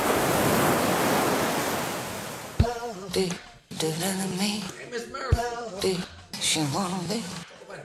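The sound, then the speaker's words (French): Surf washes onto a sunny beach as a steady, loud roar for about two and a half seconds. Then a song with a singing voice starts over it. “Une bonne journée pleine de soleil sur la plage de la tribu.”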